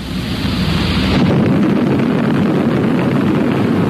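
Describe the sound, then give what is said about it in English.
Atomic bomb blast from nuclear test Able: a loud, sustained, deep roaring rumble whose texture shifts abruptly after about a second, then continues as a heavy, unbroken roar. “All right, let's take a few minutes right now and get acquainted with an A-bomb. Meet Test Able.”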